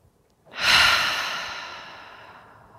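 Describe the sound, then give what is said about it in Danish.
A single deep breath drawn through the nose during a guided relaxation exercise. It swells quickly and then fades slowly over about two seconds, soft and alone. “Så tag en dyb indånding gennem næsen.”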